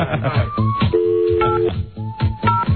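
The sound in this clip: Telephone keypad tones sound as a number is dialled for a call, a few short beeps and one longer steady tone, with voices around them.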